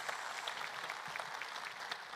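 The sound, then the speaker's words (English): Applause from a church audience welcoming a woman into a ministry role, steady dense clapping that holds at an even, fairly faint level throughout. “Can we give Shauna a hand one more time and welcome her into this role?”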